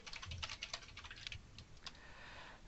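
Typing on a computer keyboard to enter a message into a chat: rapid, faint key clicks in an irregular patter, with a few sharper taps standing out.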